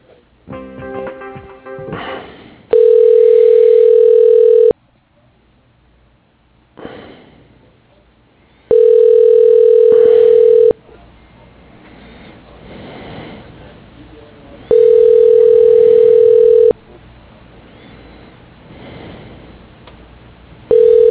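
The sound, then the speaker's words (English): A steady mid-pitched telephone line tone plays while an office call is transferred to another extension. Each tone lasts about two seconds and repeats roughly every six seconds, three times plus the start of a fourth, with soft line noise and clicks between. “Sure, yeah, let me transfer you to his line. Hold on.”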